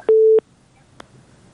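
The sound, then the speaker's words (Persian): Telephone busy tone after a dropped call: a single steady mid-pitched beep of about a third of a second, followed by a faint click. “بله بله تماس چون قطع شد. تماس بعدی را میگیریم.”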